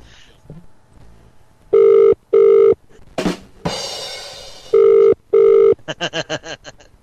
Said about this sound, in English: Hello, you're not available now. Please leave your name and phone number after the beep.